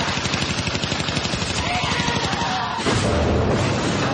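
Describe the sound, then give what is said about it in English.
A Tesla grenade sets off an EMP blast in a video game. A loud, dense burst of noise comes in late over continuous, rapid pulsing game sounds and lasts to the end. “Them are these Tesla grenades. Ooh. Yeah, they throw out like an EMP”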